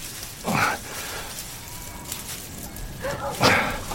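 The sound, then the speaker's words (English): A sheepdog barks while herding a flock of sheep, giving a few short, sharp barks in two separate bursts with quieter stretches between them. “Come, boy! Keep the flock away there. Good dog.”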